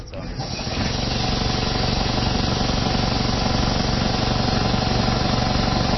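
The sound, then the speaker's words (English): An air compressor pumping fuel in a biodiesel processor starts up within the first second, then settles into a loud, steady mechanical drone with a constant low hum and hiss. “This is a compressor. We use a compressor to pump the fuel.”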